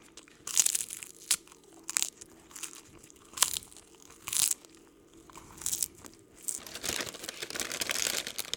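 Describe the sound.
Crinkling and crunching from a family-sized bag of spicy snack chips, in many short, irregular bursts of rustle and crunch over a soft, steady background, with no talk.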